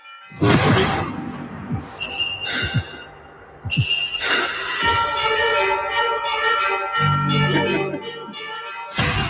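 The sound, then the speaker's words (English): Trailer audio for John Woo's action film Silent Night: sharp whooshes and low thumping hits break up ringing, bell-like tones and sustained swelling music, with a few abrupt impacts marking cuts between loud sections. “Silent Night, the latest John Woo movie, which I excitedly went to see in person at a screening, and it was just a very bad experience. This movie's really not good. Here's the trailer.”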